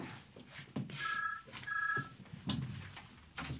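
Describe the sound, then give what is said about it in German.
A telephone rings for an incoming call: two short, bright trilling ring bursts close together, fairly quiet, with a few soft knocks and rustles around them. “Oh, und ein Anruf. Jemand ruft an.”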